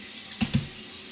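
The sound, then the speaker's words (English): Water running steadily from a sink tap while a shaving razor is rinsed, a continuous soft hiss broken by two brief louder bursts midway. “I gotta keep the sink running, you guys. It might be a little distracting, but it leads to a nice clean razor”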